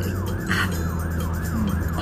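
An ambulance siren wails in a steady, repeating rise-and-fall cycle, with a constant low engine hum beneath it.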